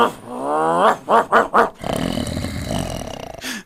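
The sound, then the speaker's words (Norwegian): A dog growls in the video game Sleeping Dogs: a long, drawn-out harmonic growl, then three short grunting bursts, and finally a stretch of rough, noisy rumbling that fades at the end. “det var jo egentlig sovende hunder da, så det, det var en litt våken bikkje der. Ja, men så sovner han på slutten. Ja, der ja, så det bra det. Der hørte vi lite klipp fra Sleeping Dogs”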